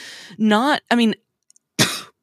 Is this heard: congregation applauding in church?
no